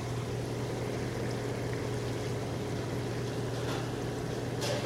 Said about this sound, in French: Et voilà, là ça bouillonne. Nous allons vous faire écouter le deuxième bouillon.